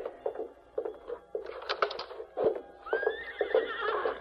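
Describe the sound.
A horse named Silver gives a high whinny that waves up and down, preceded by a few muffled hoof clops and shuffling.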